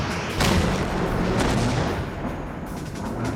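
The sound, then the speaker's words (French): A tank gun fires at armour, heavy booming blasts standing out above a dense, noisy rumble, with a few sharp explosive bursts across the stretch. “Au 5e tir, le blindage du char cède enfin.”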